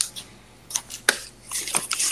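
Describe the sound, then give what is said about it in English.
Papers are rustled and shuffled, making a few short, irregular crinkling bursts that grow busier and louder toward the end, with no talk. “Somebody's rustling some papers around.”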